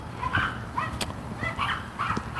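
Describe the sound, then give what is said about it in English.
A dog barks and whimpers in a series of fairly faint, high yips and whines at irregular intervals, with brief pauses between them. “Oh, this dog is going to be a pain in the butt, isn't she?”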